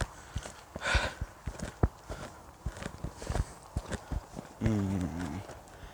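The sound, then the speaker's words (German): Footsteps of someone walking into a forest, an uneven run of crunching steps of varying loudness, with a brief voiced sound near the end. “Und ja, wir laufen jetzt, wie gesagt, gleich in den Wald rein.”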